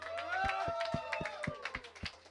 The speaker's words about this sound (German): Und einen riesen Applaus ans Radio Helsinki. Und den allergrößten Applaus an euch natürlich.